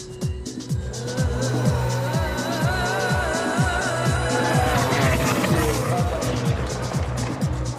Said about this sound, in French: Three lights, four lights, and the first ever Grand Prix in the Middle East is go! Anyone making a break for it?